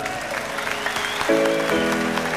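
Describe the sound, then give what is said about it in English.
Audience applause at the Rainbow Club, steady dense clapping throughout, with sustained musical notes joining partway through and carrying on beneath the clapping. “let's have a big hand for the audience of the Rainbow Club once again, please, for yourselves.”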